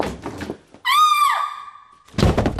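A closet door creaking open gives a long tonal hinge squeal of about a second that dips slightly in pitch, between rough bursts of rustling noise.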